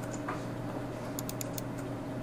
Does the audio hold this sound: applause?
no